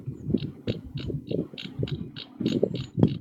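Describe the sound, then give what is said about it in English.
A computer mouse scroll wheel ratchets, giving a run of many rapid, regular clicks that come fairly loud and close together and sound slightly mechanical. “What are we ratcheting there? That's the wheel mouse. The wheel on my mouse. You hear that? That's a loud ass wheel, man.”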